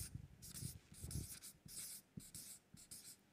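Scratchy strokes of writing on a board, many short rubbing swipes in an uneven rhythm, faint and alone.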